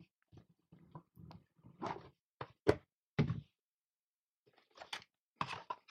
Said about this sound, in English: You want to open the box? See what we got.